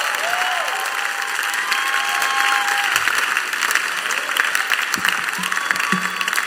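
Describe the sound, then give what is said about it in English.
Church audience applauding to welcome a bishop to the stage, a loud, continuous wash of clapping with a few brief cheers mixed in. “if you're excited, put your hands together as we welcome Bishop Dykewood Mills.”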